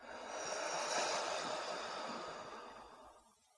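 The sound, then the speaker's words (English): A person takes a slow, deep breath and lets it go, a soft airy rush that swells, holds and then fades away into near silence. “Do that one more time. Breathe in and let it go.”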